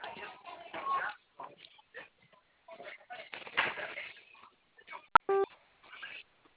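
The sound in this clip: A telephone keypad tone sounds as zero is pressed during an automated phone offer; a recorded voice talks first, then a click and a brief electronic beep come over the narrow phone line.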